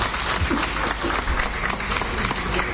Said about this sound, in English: A round of applause.